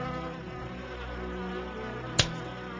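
A fly buzzes in a steady, faint, droning hum with a rich harmonic edge, broken by one brief click near the end.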